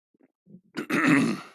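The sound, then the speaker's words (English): A man coughs and clears his throat after choking on a drink. A few faint throat catches lead into one loud, rough, rasping burst. “Excuse me. So. Dang. Getting choked out, bro, by my drink instead of my weed like it should be,”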